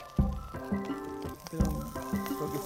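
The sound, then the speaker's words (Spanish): Chopped onions sizzle in a drizzle of olive oil in a pan, a crackling, hissing fry with a couple of sharper bursts as they hit the oil, heard over soft music. “Veo que ya cortaste unas cebollitas. Tirame un chorrito de aceite. Ahí está, ahí está. Aceite de oliva.”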